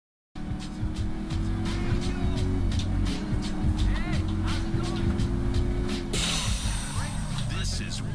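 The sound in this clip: A video game car's engine drones steadily, with a low hum and scattered mechanical clicks, and its texture turns brighter and hissier toward the end.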